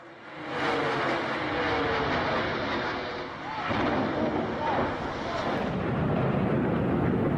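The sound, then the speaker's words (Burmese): A World Trade Center tower exploding after terrorists crashed a plane into it during the September 11 attacks, heard as a heavy, sustained roar of rumbling noise that fills the whole stretch with little letup. “အခုကြားခဲ့ရတာကတော့9/11လို့သိကြတဲ့စက်တင်ဘာ17ရက်အကြမ်းဖက်တိုက်ခိုက်မှုအတွင်းကမ္ဘာကုန်သွယ်ရေးအဆောက်အုံတွေကိုအကြမ်းဖက်သမားတွေကလေရင်နဲ့တိုက်ခဲ့တော့ကွာဒီအဆောက်အုံပောက်ကွဲတာ”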